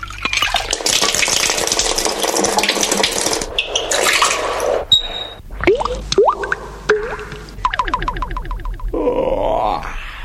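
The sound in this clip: Hot running water pours and splashes as something is washed, a dense rushing hiss that fills the first half, then gives way to uneven splashes, knocks and scrapes.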